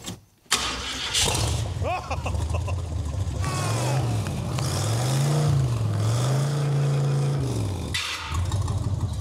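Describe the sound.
A 1990s vehicle engine cranks and catches, then runs loudly with a few revs that rise and fall in pitch before it settles into a steady idle.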